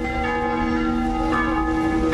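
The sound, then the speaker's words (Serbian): Church bells of a Belgrade church ring to mark the start of an Epiphany liturgy, a loud, sustained peal of overlapping metallic tones with a steady ringing hum throughout. “Zvona crkve Svetog Đorđa označila su početak liturgije.”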